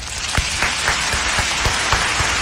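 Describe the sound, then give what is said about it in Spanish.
Applause offered in congratulation to a caller: quick, evenly spaced claps ringing out in a steady rhythm over a sustained wash of noise. “¡Bravo! ¡Bravo, bravo, bravo! Querida amiga, este aplauso es para usted.”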